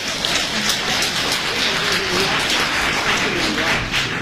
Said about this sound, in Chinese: 建议我们把最热烈的掌声献给他们。